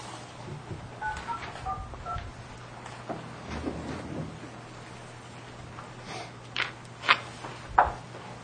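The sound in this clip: Telephone keypad tones sound as an account code is dialed: three short, bright beeps near the end, spaced roughly half a second apart, over a faint low hum and soft background noise.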